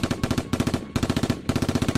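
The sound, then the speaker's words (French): Rapid automatic gunfire played as a sound effect during a tabletop role-playing dice game, a full magazine emptied in several loud, tightly spaced bursts of sharp shots with brief gaps between them. “Tu vides ton chargeur.”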